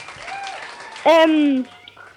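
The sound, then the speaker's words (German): Audience applause rises under a speaking voice, then a loud voiced shout or cheer bursts out for about half a second before the clapping settles back to a steady patter. “Toll, kriegst gleich noch einen Applaus hier.”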